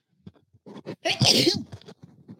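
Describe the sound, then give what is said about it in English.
A single loud human sneeze bursts out sharply after a few faint breaths and small sounds, then trails into quiet movement noises. “Ooh, fixing to sneeze, y'all. Hang on”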